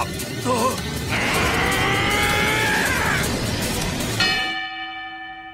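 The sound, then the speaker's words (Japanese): A boxing gong sounds once to end the first round, ringing out clear and bright after a loud, noisy din and then slowly decaying. “あっと、ここでゴングだ。第一ラウンド終了。”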